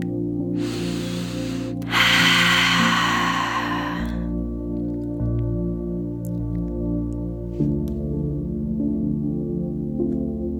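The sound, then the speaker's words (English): Deep, slow breathing in and out for relaxation: a softer inhale followed by a longer, louder breathy exhale, set over a low, steady tonal background. “just breathing nice and deep into your belly and chest, and then all the way out”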